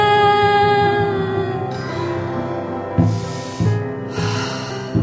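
Deep breaths drawn in and let out, a few soft, rushing breath sounds rising over a sustained, humming tonal drone that plays throughout.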